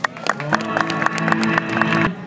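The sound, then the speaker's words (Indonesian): At a university arts-stage event at Universitas Ahmad Dahlan, an audience claps in many uneven, sharp bursts over sustained musical tones, and the applause fades out at the end. “Terima kasih juga buat semua wartawan, wah yang sudah meliput acara ini, tepuk tangan.”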